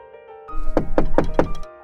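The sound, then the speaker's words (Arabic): Knocking on a house door: four firm, evenly spaced knocks, then a fainter fifth, over a low steady background tone. “من طرقت باب البيت؟ صديقتي طرقت باب البيت.”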